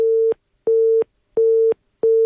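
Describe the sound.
A telephone busy signal sounds after a caller's line drops: four steady, low-pitched beeps of equal length with even silent gaps, heard alone.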